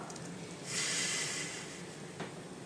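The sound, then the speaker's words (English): A steady nasal exhale through the right nostril during yogic breathing, one soft, airy hiss lasting about a second and standing alone. “And then exhale through the pingala.”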